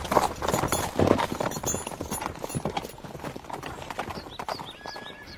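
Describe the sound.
Galloping hooves of a black mountain horse racing at full speed: many quick, steady clip-clop beats that form a dense, driving rhythm running through the whole passage.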